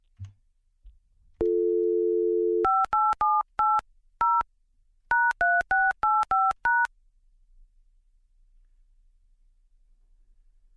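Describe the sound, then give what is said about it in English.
A telephone's steady, low dial tone holds briefly, then touch-tone dialing follows: eleven short, bright DTMF beeps in two quick bursts with a short pause between them, ending in near silence. “Oh, the sense of relief I feel when it rings after I dial.”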